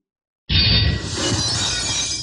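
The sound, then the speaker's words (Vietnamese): A black iron sword shatters into fragments: a sudden loud crash followed by about two seconds of bright, sustained crumbling and shimmering debris. “truyền đến tiếng sắt thép vỡ vụn. Thanh thiết kiếm màu đen vỡ nát tại đương trường, biến thành những cái mảnh vụn.”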